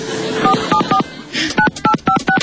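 Touch-tone keypad beeps as a telephone is dialed, a quick run of short, steady two-tone pulses: a few in a first burst, then a faster string after a brief gap.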